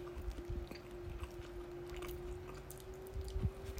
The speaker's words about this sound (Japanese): ちょっと真ん中いただきますね